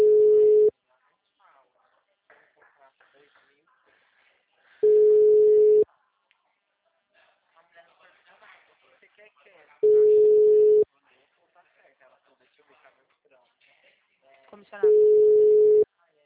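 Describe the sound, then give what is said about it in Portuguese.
A telephone ringback tone sounds on a call that goes to voicemail: four steady, mid-pitched one-second tone bursts about five seconds apart, with faint quiet sounds in the gaps between them. “Chamada encaminhada para a caixa postal. Grave seu recado.”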